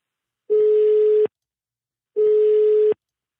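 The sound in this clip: Ringback tone of an outgoing telephone call: two steady, mid-pitched beeps, each just under a second long, separated by a short silence.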